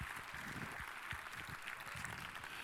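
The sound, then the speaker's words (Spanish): Faint audience applause at a murga contest in Pontevedra, a continuous hiss of many hands clapping that stays level without breaks or voices on top. “Aplausos para os de Noalla. Para os de Noalla e as de Noalla.”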